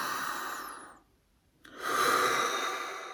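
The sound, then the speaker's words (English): Deep breathing during a guided mindfulness exercise: two soft, airy breaths separated by a brief silence, the second longer and fuller, with no talking. “Let's just take a couple breaths with this. So we're gonna inhale.”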